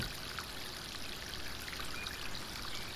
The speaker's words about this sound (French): Alors que votre regard se rapproche de cette fontaine, de toute cette eau qui coule et qui galope.